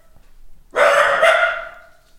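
A dachshund barks at a noise in the stairwell, letting out one loud, drawn-out bark that holds for most of a second before fading, with no talk.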